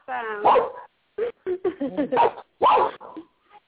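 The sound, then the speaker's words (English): An excited pet dog barks and yips in a quick run of several short, high bursts, with whining tones mixed between them. “That's my dog in the background. He's excited by what we're talking about.”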